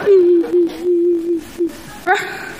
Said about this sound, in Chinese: 你哭什么呀？别哭，啊、憋回去。